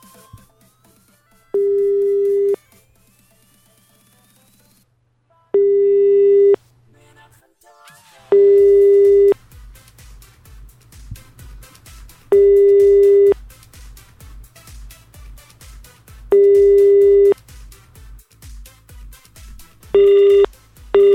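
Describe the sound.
Telephone busy signal after dialing: a steady mid-pitched tone sounds in a series of regular on-off bursts with silent gaps between them. A low, rhythmic pulsing runs underneath during the second half.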